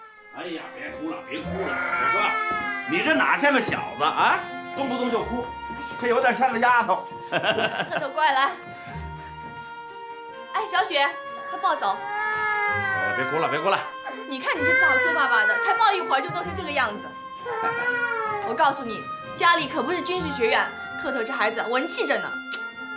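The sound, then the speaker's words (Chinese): A baby boy cries in repeated wavering wails that rise and fall, with short pauses between bursts and adult voices talking alongside. “哎呀，别哭了，别哭了，我说，你这哪像个小子啊？动不动就哭”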